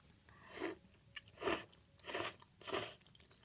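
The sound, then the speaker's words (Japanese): Someone chews a mouthful of thick, chewy udon noodles from a pot of nabeyaki udon. Four quiet, moist, crunchy chewing bursts come at a steady rhythm, with one faint smaller sound between them. “ちょっと麺も食べてみるよ”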